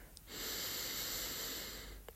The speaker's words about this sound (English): And breathe. Slowly. Inhale.